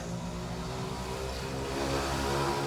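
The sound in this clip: Mopeds driving past make a steady, mid-pitched engine drone with a buzzing, revving quality that swells slightly toward the end.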